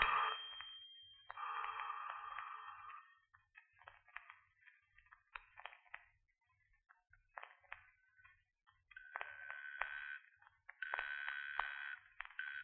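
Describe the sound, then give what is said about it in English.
A telephone in a 1940s radio mystery drama rings unanswered: faint, tinny ringing comes in several separate bursts with quiet gaps between them, and no voices are heard. “I've left instructions with the operator to trace any call that comes in. try to stall anyone who calls. Let it ring.”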